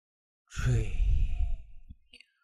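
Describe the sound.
A forceful exhale blown out through the mouth as a breathing exercise: one long, breathy rush of air lasting under two seconds, strong at the start, then fading, with a faint click at the end.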